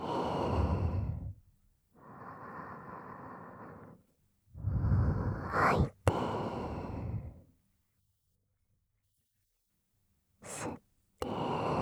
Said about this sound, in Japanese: 息を吸って吐いて吸って